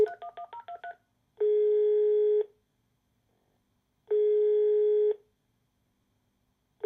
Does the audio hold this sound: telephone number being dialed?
yes